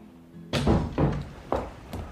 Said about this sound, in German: Da flog die Tür hinter dem Windfang auf.